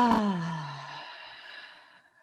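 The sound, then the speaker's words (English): A long voiced sigh as a breath is let out during a yoga breathing exercise, starting firm with a falling pitch, then thinning into a soft, airy exhale that fades away. “And then we'll take a nice inhale together. And really let it out.”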